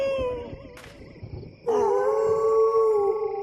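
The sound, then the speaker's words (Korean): Animals howling in response to a yodeled song: a tonal howl that fades out, a brief pause, then a louder, long sustained howl holding a steady pitch to the end. “내가 노래만 하면 울부짖네 혹시 쟤들 내가 자기들 대장인 줄 아나?”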